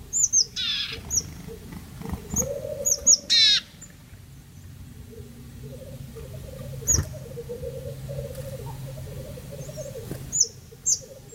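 Black grouse cocks calling: a soft, low bubbling warble runs on and on through the middle, while short, sharp high chirps from other birds break in now and then. All of it stays faint.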